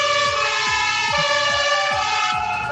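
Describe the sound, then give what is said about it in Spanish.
Fire engine sirens wail loud and steady from several fire brigade trucks in Temuco during a ceremonial honours procession, sustained high tones layered over a low whoop that falls again and again in a regular rhythm. “Cuando comienza el ulular de las sirenas”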